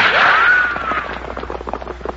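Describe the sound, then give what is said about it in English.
A gunshot fired at riders from a party of horsemen: a sharp crack followed by a high whining ricochet that slides downward and fades into rough, scattered noise. “Hey, what's the idea? Who do you think you're shooting at?”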